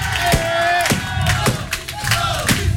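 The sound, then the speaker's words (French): A crowd shouts encouragement during a Guinness world record attempt, with mixed voices over a steady series of regular thumps repeating about twice a second. “Attention, c'est la dame Guinness Book qui donne le top. Et le public, vous l'encouragez.”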